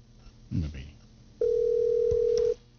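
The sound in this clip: A steady telephone tone sounds for just over a second as a caller comes through on a radio phone-in, after a brief burst of voice and amid low background hum.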